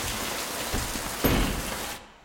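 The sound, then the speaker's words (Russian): A heavy rain downpour makes a dense, steady roaring hiss that swells briefly partway through and then drops away sharply near the end, with no voices. “Твой рейс точно не отменят? Там же ливень.”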